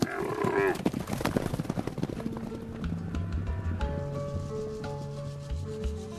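A herd of cattle is being moved along, with a low moo near the start over continuous shuffling, rubbing hoof and body noise. The sound is fairly faint throughout.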